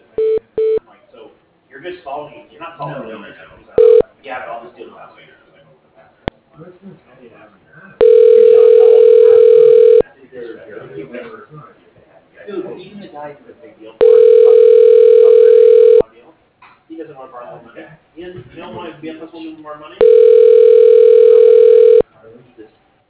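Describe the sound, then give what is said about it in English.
A telephone rings while calling a voicemail line: three long, steady ringback tones sound at regular intervals, with people talking in the gaps between them. “Can I ring his voicemail?”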